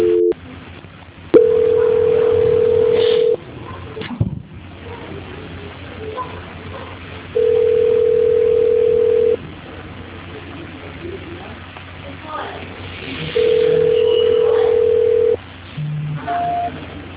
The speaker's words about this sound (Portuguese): Só um minutinho, imagina, não desliga porque eu vou estar transferindo a ligação.